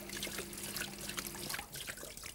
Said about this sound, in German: wenn das Wasser nun einläuft, dann wird es das Rad beschleunigen. Es dreht sich zuerst langsam und wird dann immer schneller.